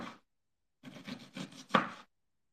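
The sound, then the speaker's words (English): A knife chopping food in a kitchen makes quiet, dull cutting strokes: one short cut, then a pause, then a closely spaced burst of several more strokes. “You hear the cutting? Is it nice ASMR?”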